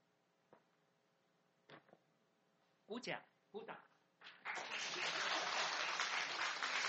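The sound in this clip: A few short, separate sounds come first, then audience applause breaks out partway through and continues as a steady, dense clatter until the end.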